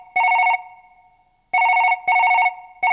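An outgoing phone call rings on the line: loud, trilling ring bursts sound in a paired pattern, one burst, a long pause, then two close bursts and the start of another.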